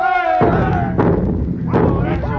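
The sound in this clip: A ship's guns fire a few heavy, booming shots at a fort, each a sharp low thud that breaks through excited voices.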